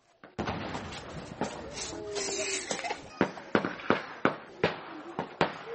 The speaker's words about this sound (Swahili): Huo ni mlio wa risasi kutoka jeshi la Jamhuri ya Kidemokrasia ya Kongo FARDC likikimbizana na wapiganaji wanaoshukiwa kuwa ni Mai Mai